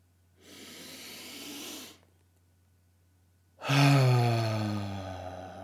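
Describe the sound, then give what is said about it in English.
A person takes a deep breath: a long, airy inhale, a brief silent pause, then a louder, voiced sighing exhale that slowly fades away. “I'm going to take a deep breath. You're welcome to join me on this deep breath. I'm going to take another one because that felt so good.”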